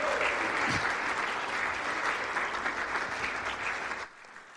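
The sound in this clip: Warm, dense audience applause welcomes a missionary speaker to the stage at a church gathering, holding steady before cutting off sharply near the end.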